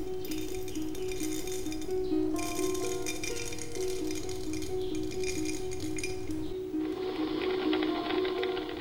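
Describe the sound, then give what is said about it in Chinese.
A coffee farmer in Dakaihe village, Pu'er, pours coffee beans into a pot, making a steady, continuous rattling and clinking that runs throughout at an even, moderate level. “普洱大开河村的一名咖农正在将精心种植的咖啡豆倒入壶中，准备慢慢享受他的劳动成果。”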